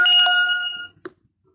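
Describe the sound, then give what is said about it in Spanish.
A telephone rings as a call is dialled, a bright electronic ringtone with clear harmonic tones lasting under a second, then a single short click before silence. “Estamos esperando la llamada que los marquen. Ah, exactamente ahorita los acaban de marcar.”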